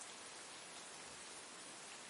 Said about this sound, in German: Lunas Katzenfell ist schon ganz nass vom Regen und an ihren Schnurrhaaren hängen kleine Wassertropfen.